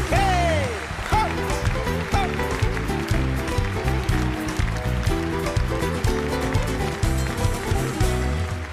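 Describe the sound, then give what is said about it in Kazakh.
An audience claps along in steady rhythm with upbeat live music, the many hands keeping a regular beat under the band and a singing voice. “жақсылап шапалақтап отырайық, құрметті ағайындар, қолдау көрсетіп.”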